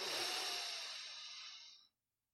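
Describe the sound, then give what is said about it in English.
A single long deep breath makes a soft, airy hiss that lasts about two seconds. It gradually fades and then cuts to silence. “Take that deep breath of Ruach energy.”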